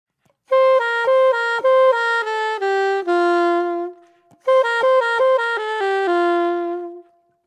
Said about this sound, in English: So over this A7 altered chord, there's a classic bebop lick.